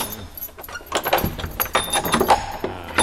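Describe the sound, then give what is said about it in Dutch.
A gate being opened, giving a clatter of metallic clanks and jangling rattles that build after a quieter start and continue in uneven bursts. “De poort. Ja, de poort gaat open.”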